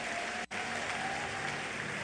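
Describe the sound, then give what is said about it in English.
A church audience claps hands during a service, a faint, dense patter of applause. After a brief dropout near the start, it carries on steadily. “Give the Lord a big hand clap and please be seated.”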